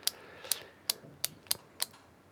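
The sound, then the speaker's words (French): Injection pen being pressed into belly skin, giving six sharp, faint, evenly spaced clicks heard alone against a quiet background. “Je le déboîte. J'enlève le capuchon, je le plante dans la peau du ventre et j'appuie sur le bouton.”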